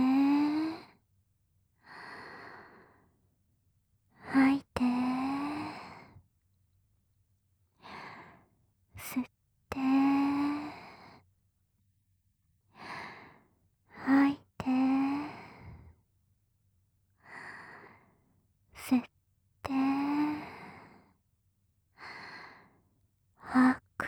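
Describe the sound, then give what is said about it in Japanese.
Deep breathing in and out, many slow breaths in a steady rhythm. Each is a soft airy rush, some with a voiced, sigh-like exhale, separated by quiet pauses, with no talk over them. “呼吸してみよっか。はーい、吸っ”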